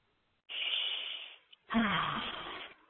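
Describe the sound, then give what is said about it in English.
A deep breath, heard alone: a long, airy inhale, a brief pause, then a fuller, rougher exhale of about the same length. “And take a deep breath.”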